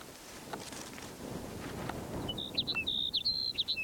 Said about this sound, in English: Sage Sparrow number 3.